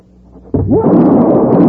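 A single loud gunshot from a derringer pistol: an abrupt sharp crack that swells into a long, booming, rumbling tail.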